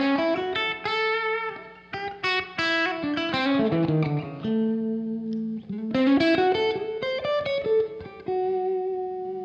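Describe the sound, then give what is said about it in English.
Electric guitar, a Stratocaster, played with heavy reverb and a chorus-like wash: a run of plucked single notes and short melodic phrases, each ringing out and overlapping in a thick, sustained tail, with no talk. “reverb soaked at the moment. You know, it's really, it sounds good in all the positions, which is not something you always come across with the Strat.”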